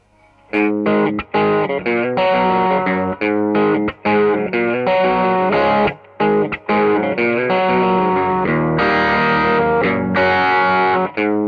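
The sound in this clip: An electric guitar with distortion and chorus effects plays an album-opening song intro in A, using hybrid picking that alternates pick and fingers. Loud, ringing chordal notes run steadily with a few brief pauses, and no one speaks.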